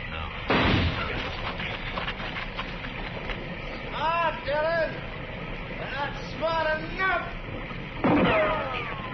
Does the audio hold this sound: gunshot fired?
yes